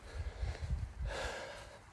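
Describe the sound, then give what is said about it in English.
A big, deep breath drawn by a person about to walk up a hill. It is a long, breathy rush over a steady low rumble, with the inhale swelling near the middle. “A big breath there, because I'm just about to go up the hill”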